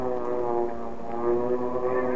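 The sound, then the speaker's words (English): Stuka dive bombers and Dornier bombers with Italian escort aircraft approaching a wartime airfield, a steady, droning, multi-toned engine hum that holds an even loudness throughout with no voices. “Oh, here comes the visiting team. Stukas, Dornius, and some Italian escort.”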